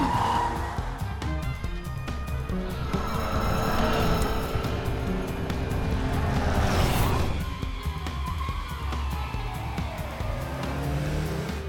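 A car engine roars and its tires squeal as the car speeds along a cliff edge in an animated film. The driving noise stays loud and continuous, with a brief louder swell near the middle.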